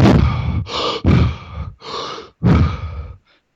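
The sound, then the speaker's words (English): Quick, deep breaths are taken in a hyperventilation breathing method, several loud, forceful rushes of air in and out in a steady rhythm, with no talking. “you do this hyperventilation method where you take 30 quick, deep breaths.”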